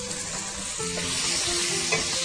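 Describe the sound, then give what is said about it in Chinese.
Chili bean paste sizzling as it is stir-fried in a wok, a steady crackling hiss with faint scrapes of stirring throughout, no talking. “这个时候呢，我们要把这个豆瓣酱放下去炒香”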